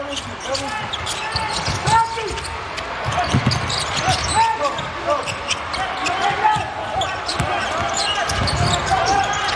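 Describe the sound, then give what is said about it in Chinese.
A basketball is dribbled on court during an Iran national team game, with repeated bounces mixed into crowd noise and under steady commentary. “运球没有运稳，伊朗队队员还是打得挺聪明的。”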